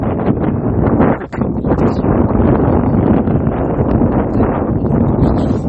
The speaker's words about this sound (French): Désolé pour le vent, c'est très venteux.